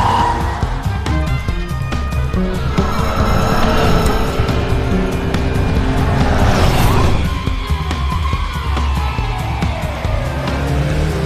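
A car speeds along a cliff edge, its engine roaring steadily with squealing, skidding tires throughout, loud and continuous.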